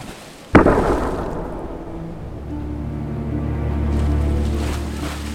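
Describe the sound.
Stormy sea water rages around a ship at night, a steady, low, churning roar. Early on, one sharp blast like a cannon shot cuts through and decays back into the rumbling water.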